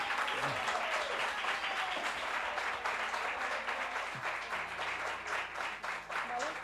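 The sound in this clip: Audience applause at a concert: dense, steady clapping that fills the whole stretch at a fairly even level, with scattered voices and cheers mixed in.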